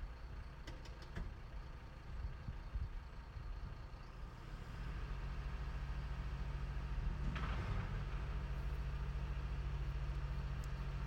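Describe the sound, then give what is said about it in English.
A large vehicle's engine rumbles steadily as it reverses and grows louder and fuller partway through. No spoken warning can be made out over the engine. “I think it might be going now. Yeah, it says something when it reverses, but it's not very loud. It says something like, vehicle reversing.”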